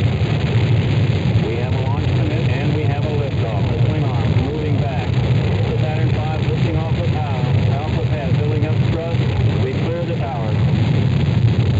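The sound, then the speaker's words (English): Rocket engines igniting at launch and building toward 7.7 million pounds of thrust, a steady, dense roar that holds level throughout while a man speaks over it. “we have ignition sequence start. The engine's now building up to 7.7 million pounds of thrust.”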